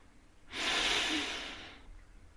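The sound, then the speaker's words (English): A single deep breath drawn in through the body during a guided relaxation exercise: a soft, airy inhalation that swells quickly, holds steady, then slowly fades, alone against near silence. “Now I'd like you to take a deep breath in, into the abdomen,”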